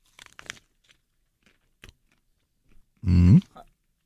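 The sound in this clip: Biting into a croissant pastry treat gives one loud, dense crunch lasting under half a second. A few faint clicks and rustles come before it, and one brief, softer chewing sound follows.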